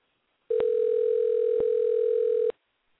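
A steady telephone dial tone plays while a call is being placed. It is a single unbroken pitch lasting about two seconds, with brief clicks at its start, middle and end, followed by silence.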